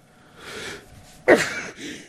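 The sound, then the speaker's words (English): A single sneeze: a soft breathy build-up leads into one sharp, explosive burst, followed by a faint breath afterward. “Well, how's that for a live sneeze, huh, folks?”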